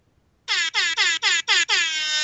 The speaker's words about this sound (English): I might have an air horn. Let me look. I have an air horn. Hold on.